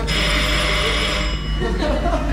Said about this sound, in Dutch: Je zou zeggen, hij weet dat we hem bellen. Dus hij zou wel ogenblikkelijk naar het toestel hollen om het zo vlug mogelijk op te nemen.